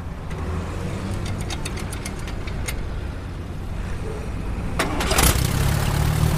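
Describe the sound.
A vintage vehicle's engine starts during a veteran vehicle procession: steady outdoor noise with light clicks, then a sudden burst as the engine catches and settles into a louder, low rumble.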